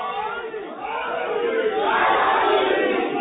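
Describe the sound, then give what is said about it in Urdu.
A large crowd loudly shouting the Naara-e-Haidari slogan in unison: a dense roar of many voices that swells louder in the second half. “اتنا بڑا نعرہ لگائے کہ اگر جبریل آسمان پہ ہے تو زمین پہ آنے پہ مجبور ہو جائے.”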